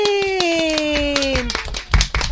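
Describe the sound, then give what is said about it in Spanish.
Children clap their hands in applause, a steady run of many sharp, evenly spaced claps while a voice holds a falling sung note, then the clapping grows uneven and briefly louder near the end. “Un aplaudiment molt, molt fort.”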